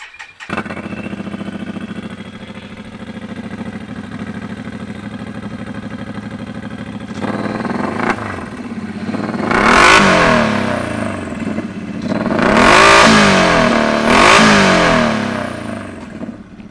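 A motorcycle fitted with a race pipe slip-on exhaust idles steadily, then breaks into a series of sharp throttle revs that rise and fall, the last two longer and louder.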